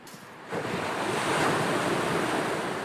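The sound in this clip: Calm sea waves under a sunny October sky, a steady, soft wash of surf and wind that swells in after a quieter opening and holds evenly.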